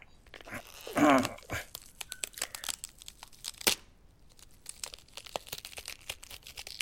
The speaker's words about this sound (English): Okay, now just gotta fold up my bones to squeeze through the grease hole.